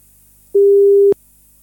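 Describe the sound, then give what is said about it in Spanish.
A telephone call tone sounds while a call is being placed: one clean, steady mid-pitched beep lasting about half a second, with quiet before and after. “Parece que ahí estamos ya llamando.”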